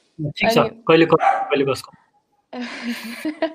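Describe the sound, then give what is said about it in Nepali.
A dog barks in a few short, sharp bursts, loud and close together, followed by a stretch of rougher, noisier sound. “मेरो कुकुर भुकिरहेको”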